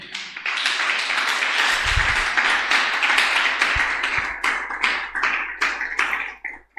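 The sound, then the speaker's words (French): Congregation applauding and cheering during a church service, a dense burst of clapping that holds steady for several seconds, then thins into scattered claps and stops. “Est-ce que tu es béni? Acclame pour Jésus.”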